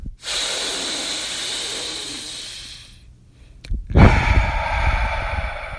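A practice breath through a congested, stuffy nose: a long, steady hissing breath of about three seconds, a brief pause, then a rougher, lower breath with a sharp onset.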